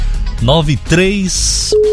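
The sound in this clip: A telephone line rings during a call-in prize game on a live program: a voice speaks first, then a high electronic tone sounds briefly, followed by a steady lower tone held to the end.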